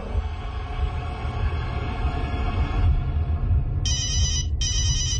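A telephone rings urgently in two rapid, shrill bursts near the end, after a low, steady rumble.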